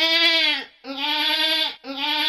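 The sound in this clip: A sick goat bleats loudly on its own in long, wavering, strongly harmonic cries: two full calls and a third that is cut off at the end.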